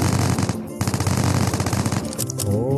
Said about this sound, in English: I'm gonna shoot it. Boom! Headshot!